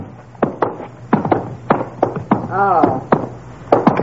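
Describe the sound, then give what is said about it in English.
Knocking: a long series of sharp, hollow raps in an irregular rhythm, with a brief voiced sound partway through. “What's open, Ma? What are you knocking for?”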